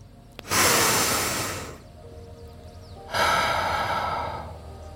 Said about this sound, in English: So, when's the last time you took a deep breath? You know what? Let's do that right now.